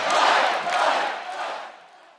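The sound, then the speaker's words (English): A crowd chants a rallying cry of "fight" over and over during Donald Trump's convention speech, a loud roar of many voices rising and falling in about three swells. “from Trump's comments to the musical performances you heard throughout the evening and to chants from the crowd during his speech, it became pretty clear that Trump's new rallying cry was a true theme of the evening. Fight, fight, fight.”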